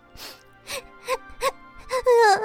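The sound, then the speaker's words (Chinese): A voice acts out crying in a storybook reading: several sobbing, moaning bursts in a broken rhythm that grow louder and more strained toward the end. “呃，Hello，你你还好吗？为什么在哭呢？”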